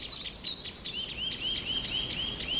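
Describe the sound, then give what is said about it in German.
Agitated calls of a song thrush or blackbird: a rapid run of many sharp, high chirps and short whistles repeating steadily, fairly faint and alone. “Ja, dieses Heftige ist eine Singdrossel, die aufgeregt ist wegen irgendwas. Oder ist es doch eine Amsel?”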